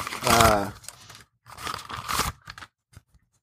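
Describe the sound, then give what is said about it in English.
Crinkling and tearing of a sticker package being opened, broken up by bursts of rustle, with a voice talking over it. “Real quick, though, I want to give a shout out and do a live sticker opening from Joe Pierce. Thank you, Joe.”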